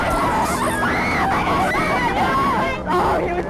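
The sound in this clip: A crowd of excited fans greeting a touring hip-hop recording group fills the air with continuous screaming and shrill babble, loud and unbroken throughout.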